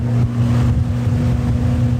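Engine drone of a rescue motorboat running fast on the Danube: a loud, steady, low-pitched hum that holds an even level throughout.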